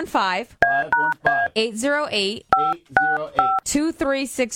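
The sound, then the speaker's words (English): Telephone keypad dialing tones: a rapid run of short, clean electronic beeps in two clusters, with a voice talking between and around them. “The number you have dialed is not in service.”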